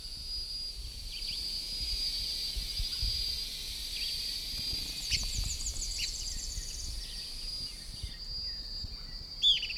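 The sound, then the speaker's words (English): Birds calling, with two birds present, give a few brief sweeping chirps over a steady high-pitched hiss. One louder call comes near the end. “Both birds present.”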